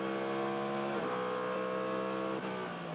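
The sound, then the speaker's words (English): Race car accelerating hard during 2023 WeatherTech Sports Car Championship qualifying at Long Beach, the loud engine note dropping sharply at two paddle-shift upshifts before climbing again. “Back on the throttle, changing up through the paddle shift.”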